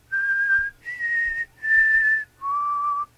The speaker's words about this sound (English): That's actually just me whistling.